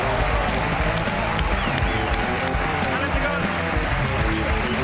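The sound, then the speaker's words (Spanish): Audience applause and cheering for mountaineer Ale Chicón at a live show, a dense, continuous roar of clapping hands mixed with shouting voices, loud and unbroken. “Un aplauso para Ale Chicón, en la Resistencia.”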